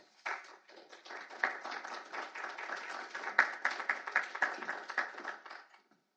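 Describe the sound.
An audience applauds to welcome a speaker to the stage. Many dense, steady claps swell after a soft start, hold for several seconds and then die away.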